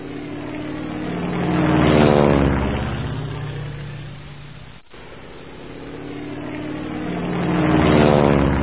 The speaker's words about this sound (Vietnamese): Chiếc hòn đa đang siết cánh, cuốn tròn quanh ngọn cây, động cơ nổ rền rền như sấm sét giáng lên đầu.